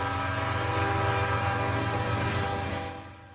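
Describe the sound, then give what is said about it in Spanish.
A train whistle or horn sounds as a loud, sustained steady tone with layered pitches. It holds level for nearly three seconds, then fades toward the end. “donde pite el tren.”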